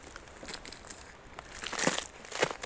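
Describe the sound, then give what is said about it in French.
Crisp crunching and crackling on an icy road in the Hautes-Pyrénées mountains: quiet, irregular crinkles that grow louder toward the end, where two stronger crunches stand out. “Une route verglacée.”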